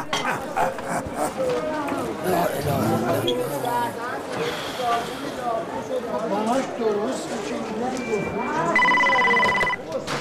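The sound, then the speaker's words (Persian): A telephone rings near the end, a steady bright electronic tone rising over continuous talk and household movement. “این تلفنه.”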